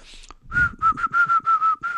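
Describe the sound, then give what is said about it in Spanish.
A person whistles a quick run of short notes held at a fairly steady pitch, clear and alone, with brief gaps between them. “Cuando la gente silba, se siente como que está tramando algo”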